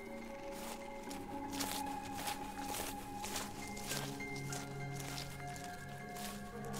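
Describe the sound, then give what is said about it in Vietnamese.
Light footsteps crunch softly over dry leaves, a run of faint, irregularly spaced crackling steps with rustling, set against steady low background tones. “Bảo nghe thấy phía sau lưng như có tiếng bước chân của ai đó đi rất nhẹ, dẫm lên lá cây sột soạt”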